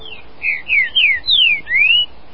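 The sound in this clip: Green-winged saltator calling in a cage: five loud, clear whistled notes in quick succession, each sliding in pitch, with no voices.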